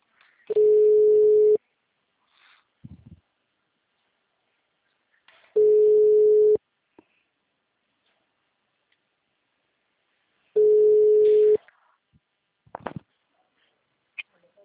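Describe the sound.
Telephone line tones after a dropped call: three steady one-second beeps at a single pitch, evenly spaced by long silences, with faint clicks between them.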